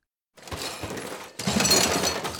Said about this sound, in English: Those jars and bottles are made of glass and he's recycling them.